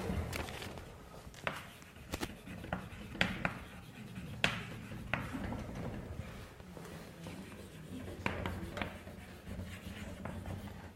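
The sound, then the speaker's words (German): Writing by hand during a math explanation, faint scratchy strokes with a few sharper taps, continuing steadily with no speech. “Jetzt schreibe ich das nochmal anders hin.”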